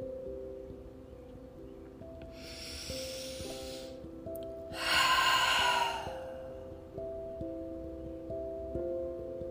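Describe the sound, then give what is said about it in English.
Loud exhaled breaths during a relaxation exercise: two long, breathy exhales over soft, sustained tonal music, with the second breath stronger than the first. “use your breath to release it. The easiest way to do that is to make your breath really loud as you exhale. Get it out.”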